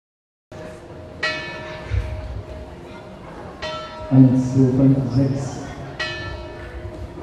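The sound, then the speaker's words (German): Church carillon bells ring out from the St. Jakobi church in Hettstedt, with a few bright struck tones sounding at intervals and a cluster of overlapping chime notes ringing out in between, each one decaying slowly. “Seit 10 Jahren bemüht sich die St. Jakobi-Gemeinde Hettstedt um die Vervollständigung von Glockenspiel und Elektrifizierung von Glockenstuhl.”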